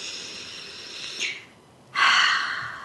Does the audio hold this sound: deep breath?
yes